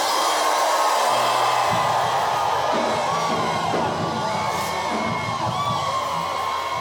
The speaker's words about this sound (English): Somebody scream in here.